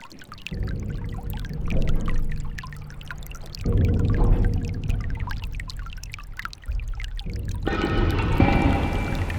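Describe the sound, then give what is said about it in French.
An old hydraulic ram pump that runs without any external energy gushes and pours water. The flow comes in rushing surges that shift abruptly every second or two, with low splashing churn. “C'est une pompe bélier qu'on appelle ça, voilà. Donc c'est assez vieux, oui. Donc c'est une pompe qui n'a pas besoin d'énergie pour fournir de l'eau, en fait. On va voir si ça marche, ça marche.”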